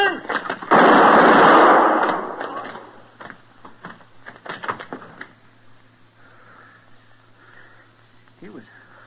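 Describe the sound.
A gunshot in a radio western drama: one loud, booming blast with a long rumbling decay, followed by men talking over a low hum.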